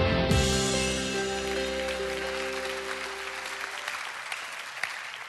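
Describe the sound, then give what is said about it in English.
Audience applause at a Savannah Christian gathering as a middle and high school leader is welcomed to speak, a dense, steady wash of clapping that gradually thins and fades. “Let's give a warm Savannah Christian welcome to Marcus Johnson.”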